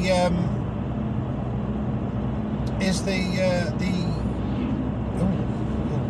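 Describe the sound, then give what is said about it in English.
A car driving on the road, heard as a steady low rumble of engine and road noise that persists throughout, with a voice briefly over it. “Sorry, we are driving, so bear with me.”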